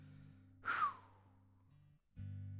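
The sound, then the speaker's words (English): One big, deep breath, taken and released as a soft breathy sigh during a church gathering, heard over a quiet, steady sustained tone that briefly drops out before returning. “I just want us to take a big, deep breath. Come on, just do a big inhale and exhale for a moment, just physically.”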